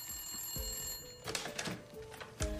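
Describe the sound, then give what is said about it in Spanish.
A telephone rings with a steady, high electronic tone through the first half, followed by several louder, irregular bursts. “Desde la finca donde fue hecha la llamada del aniversario llamaron a los Jäger.”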